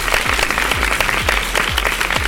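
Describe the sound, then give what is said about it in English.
Applause from many hands, a dense and continuous patter of clapping that stays at an even level for the whole stretch. “give yourselves a great big round of applause”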